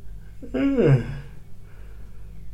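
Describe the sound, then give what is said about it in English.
A single voiced yawn rises into an open, breathy vocal sound that slides downward in pitch over about half a second, then fades into quiet. “And yawning.”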